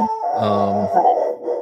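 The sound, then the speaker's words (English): A male puppy howls in a drawn-out, mournful wail with rich harmonic overtones, holding one steady tone for about half a second before sliding into a wavering, whiny continuation. “pardon the dog”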